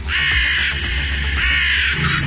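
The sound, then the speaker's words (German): Crows cawing over Kreuzberg: a dense, continuous chorus of harsh, rasping caws that fills the whole stretch at a steady, loud level, with no voices. “Schwarze Krähen kreisen über Kreuzberg.”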